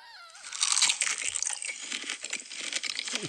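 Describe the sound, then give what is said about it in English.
Close biting and chewing of big, juicy organic strawberries in an ASMR eating video: a dense, moist crunching and crackling that carries on steadily, loudest early on. “ASMR, her ASMR videos, She's classic. Eating big and juicy organic strawberries. Ugh. But strawberries don't have that much crunch”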